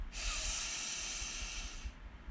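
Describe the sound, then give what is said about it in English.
A deep breath drawn in during a breathing exercise: one steady, airy, hissing inhale lasting nearly two seconds, fairly soft and with no talking. “We'll take a deep breath in, extending our breath on the in-breath.”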